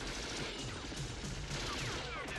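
Rapid gunfire from a Steyr assault rifle in a video game forms a dense, continuous rattle of shots across the whole clip, loud and without clear gaps.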